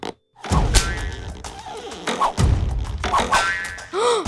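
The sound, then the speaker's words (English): Slingshot shots from the Lost Boys hit at their treehouse in a cartoon scene, a few bouncy thwacks and twangy boing-like impacts rapidly separated by short gaps. “Put those slingshots away. That is no way to welcome our special guest.”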